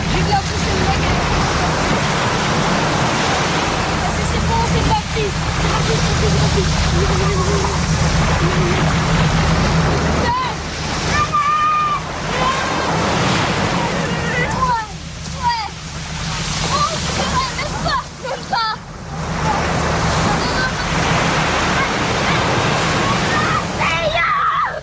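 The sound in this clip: Waves wash onto the beach of Port-Ardoué near Pointe de Gros-Rocher, a continuous rushing surf that swells and eases in slow surges, with a few brief lulls.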